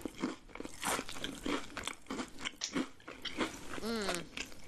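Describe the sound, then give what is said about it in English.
Potato chips are crunched and chewed in many sharp, crisp bites, a rapid run of close mouth crunches with no talking. “Just some good chips.”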